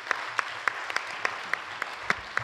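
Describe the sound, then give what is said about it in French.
Audience applause: a broad wash of clapping with a steady run of evenly spaced, sharper claps, about nine beats, standing out on top. “Mais enfin, on va quand même l'applaudir.”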